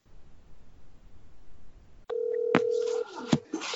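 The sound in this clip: A telephone call being dialed and ringing: after a quiet stretch, a loud steady tone switches on, broken by a few sharp clicks, then gives way to fainter, uneven tones.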